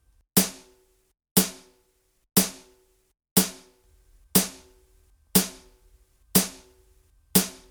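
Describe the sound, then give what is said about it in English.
Eight sharp percussive hits, each with a bright attack and a quick decay, sound as quarter notes in a rhythm demonstration. They fall at a steady pace of about one per second with silence between them. “Every half note is going to make 2 quarter notes, and they sound like this.”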